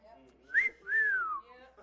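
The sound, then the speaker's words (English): A person whistles a wolf whistle in two notes: a short upward swoop, then a longer, falling glide. The whistle is clear and fairly quiet, with no talking. “when I was young, I got a lot of woof whistles. You know what that is?”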